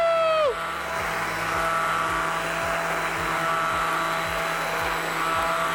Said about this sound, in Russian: И также еще раз блендерю.